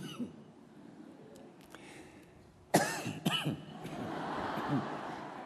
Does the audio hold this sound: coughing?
yes